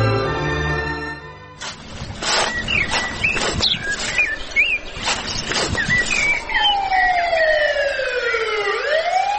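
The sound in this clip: A police car siren sounds while passing through a village, a loud warbling tone broken by sharp bursts in its first half, then a long sweeping wail toward the end.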